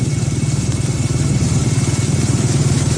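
A motorcycle engine slowing down and labouring gives a loud, continuous low throb with a steady, rapid pulsing rhythm throughout, alone without voices.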